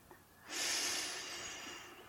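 A person breathes in deeply: one long, steady inhale that swells into a loud airy rush and holds for more than a second, with no talking.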